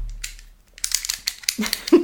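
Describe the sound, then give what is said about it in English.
Rummaging clicks and light rattles as a Stanley knife for cutting lino is taken out of an artist's tool box, a quiet start giving way to a flurry of small taps and crinkles, then a heavier knock at the end. “What else is in this box? A Stanley knife.”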